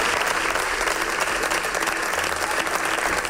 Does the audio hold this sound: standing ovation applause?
yes